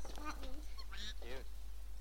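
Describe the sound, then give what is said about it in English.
Duck-like quacking comes from a purse, a few nasal, honking calls over a steady low hum. “It actually quacks, that purse.”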